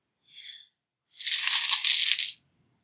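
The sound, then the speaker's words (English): Two dice rolled during a tabletop game: a brief light rattle, a short pause, then a longer, brighter clatter as they tumble and settle, with no talk. “So I take a minus 2. Mm-hmm. Plus another minus from being physically damaged. So I get to roll 2 dice.”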